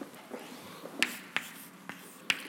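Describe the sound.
Writing an equation on a board: faint scratchy strokes are broken by a few sharp, dry taps at irregular intervals, with no talk over them.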